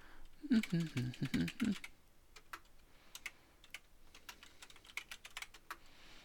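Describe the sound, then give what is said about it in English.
Typing on a computer keyboard: rapid, uneven key clicks, quiet overall, with a busier cluster early on that thins into sparser taps. “Let's go type up, just take 1 second.”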